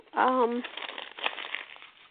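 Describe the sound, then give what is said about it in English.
Paper being crinkled and crumpled up by hand, a busy rustling crackle that follows a brief voiced sound at the start. “you hear me crinkling up paper? That's right, you do.”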